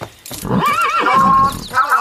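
A horse neighs in a loud, wavering whinny that lasts over a second, its tone rising and trembling before it breaks off.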